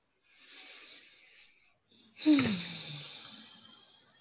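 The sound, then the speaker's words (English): Deep breathing: a soft drawn-in breath, a pause, then a louder, longer exhale that carries a brief voiced sigh falling in pitch before fading out. “So I'm just going to do that very quickly. I take a few deep breaths.”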